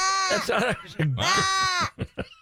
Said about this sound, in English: Is there a goat out in the roadway?